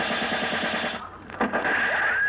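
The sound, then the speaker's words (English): Gunfire with bullets shot across an army infiltration course: a rapid, rattling run of shots lasting about a second, then a lull broken by a single sharper crack. “Hey, those are bullets. Yeah, are we being shot at?”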